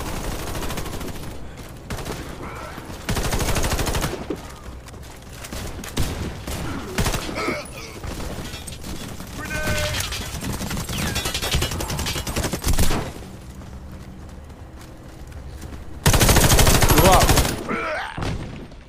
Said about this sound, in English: How is that a one-shot gun? Some of these guns are one-shot.